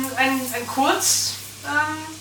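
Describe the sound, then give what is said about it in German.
Frying sizzle as arborio rice is added to the pan, a brief bright hiss rising in the middle of steady talk. “Übrigens, ich glaube, wir können jetzt unseren Arborio-Reis Hinzufügen.”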